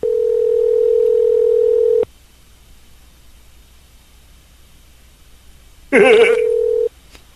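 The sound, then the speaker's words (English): Telephone line tones from an incoming call: a steady dial tone holds for about two seconds and stops, then after a quiet pause a short burst of warbling dialing tones runs into a brief steady tone. “Caller ID says Hatch, New Mexico is calling me.”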